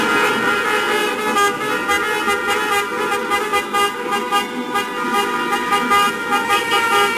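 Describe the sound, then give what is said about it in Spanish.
Car horns honk in street celebrations after Spain's World Cup football win in Andalusia, many overlapping blasts and sustained toots blending into a continuous, loud, steady din throughout. “Los sonidos que seguro han escuchado tras las celebraciones de la Copa del Mundo que ha logrado España”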